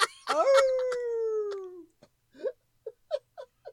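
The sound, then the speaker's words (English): A person imitates a dog howl with one long, drawn-out vocal howl that slides downward in pitch, followed by several short, quiet yelping whimpers. “I rate dogs a howl. Or should I just howl?”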